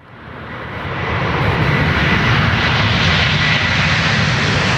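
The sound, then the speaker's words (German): Airplanes taking off and landing produce a loud, broad engine roar that swells over the first second and then holds steady and heavy. “Und für ein paar Menschen unter uns ist der Lärm von startenden und landenden Flugzeugen einfach Musik in den Ohren.”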